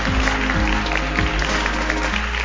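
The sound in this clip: Audience applause welcoming a pastor at a church service: steady, dense clapping at even loudness throughout.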